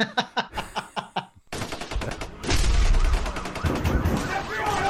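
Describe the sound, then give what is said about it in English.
Machine gun fire rattles in a quick series of sharp, loud bursts, then swells into a dense, sustained barrage of continuous shooting. “But I shall leave you with a few words and some machine gun fire from the cult leader.”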